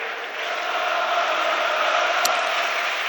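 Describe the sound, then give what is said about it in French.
Sustained roar of the home crowd at the Toulouse stadium during a football match, a dense, steady wall of voices that swells slightly and then holds at an even level throughout. “Et le public du stadium qui donne de la voix.”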